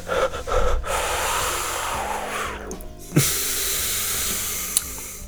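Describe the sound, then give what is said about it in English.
A big, deep breath, heard as a long, steady, airy rush of air lasting several seconds, alone without any talk. “Let's take a big ass breath.”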